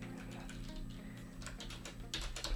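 A search keyword is typed into the Instagram search box as a quick run of light, crisp key taps with a low steady sound underneath.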